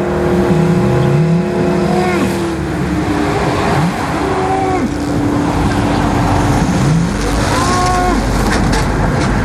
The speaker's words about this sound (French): Ici, pas de plis, pas de collines, pas de montagnes pour dissimuler le son de l'autoroute.